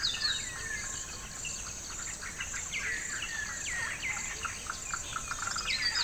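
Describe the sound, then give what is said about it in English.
Rainforest ambience recorded on location: many bird chirps and quick sweeping calls overlap above a constant high insect drone, busy and layered with no voices. “rainforests, you are going to be hearing the sound that he has captured from location”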